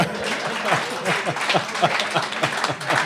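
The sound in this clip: Scattered applause from a small group after a slideshow presentation: separate hand claps in a loose, uneven rhythm, moderately loud and fairly steady for about three seconds.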